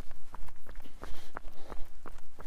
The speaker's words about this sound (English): So now we're doing a 20 minute just nice easy jog here.